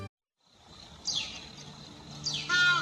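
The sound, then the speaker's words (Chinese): Two sharp, high-pitched calls of a Qinling golden eagle ring out, each sweeping downward, the second trailing into a rapid chattering trill over a faint low hum. “这是秦岭金雕的声音”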